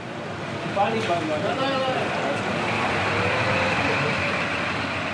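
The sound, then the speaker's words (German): A long-distance bus bound for Serbia pulls away from the Breslauer Platz coach station in Cologne. A steady, broad rumble of engine and road noise fills the whole clip, with voices faintly mixed in. “Ein Bus nach Serbien fährt soeben los.”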